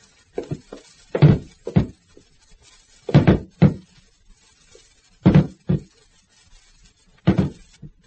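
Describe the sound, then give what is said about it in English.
A table is rammed against wooden door panels, giving many heavy, hollow thuds that come in pairs and short bursts, with brief pauses between blows. “Maybe if we both got a hold of that table. Here, give me a hand. Here. We'll use it as a battering ram and try and break in the panels, right?”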